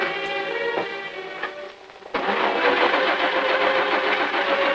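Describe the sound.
A choke-equipped car being started: a whirring, tonal cranking sound, then the engine catches after about two seconds and settles into a louder, steady rumble.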